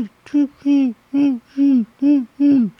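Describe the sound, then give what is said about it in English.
A human voice imitates the regular chirping of crickets during a total solar eclipse, making six short, evenly spaced voiced syllables, each holding a steady tone that dips slightly at the end. “You'll actually hear the crickets start chirping as soon as the total eclipse takes place. And then 2 minutes later, they'll keep chirping, but in a different way. You know, the regular chirping is like,”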